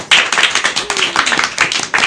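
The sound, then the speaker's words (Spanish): Lively audience applause for a guest at the close of a Spanish-language event, loud, uneven bursts of many hands clapping with quick surges and dips in intensity. “Un aplauso a Ana, por favor.”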